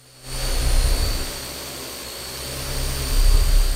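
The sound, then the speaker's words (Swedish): Remote-controlled multi-propeller drones hover at a trade fair, giving a steady whirring drone with high, sustained whining tones. The sound starts abruptly, then swells, dips slightly and swells again. “Och så här låter de fjärrstyrda flygrobotarna som med allt mellan 4 och dussintalet propellrar håller sig i luften och kontrolleras av en människa på marken med hjälp av fjärrkontroll.”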